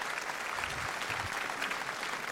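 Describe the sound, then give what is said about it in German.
Steady, even applause from an audience at a ceremony honouring a long-time local history society member, a dense patter of many hands clapping throughout. “Applaus, Klaus.”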